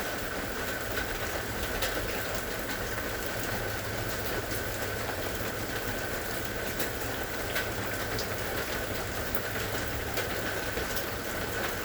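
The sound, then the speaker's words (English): Steady rain, a quiet continuous hiss with scattered sharper drop sounds throughout. “I invite you to explore this now via the sound of rain.”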